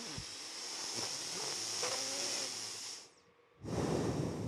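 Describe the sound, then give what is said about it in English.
Someone breathes out through the nose in a long, airy hiss lasting about three seconds. After a short gap, another breath starts, quiet and with no talk. “Breathe. Listen to my breath out of my nose.”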